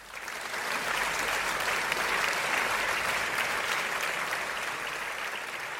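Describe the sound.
Audience applause welcoming a guest onto a talk show, a dense, even wash of clapping that swells quickly and then holds at a steady level for several seconds.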